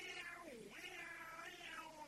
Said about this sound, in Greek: Η αρκούδα σαν άκουσε εκείνο το άγριο μιαούρισμα γυρίζει και λέει «Ωχ, θα με φάνε, μωρέ».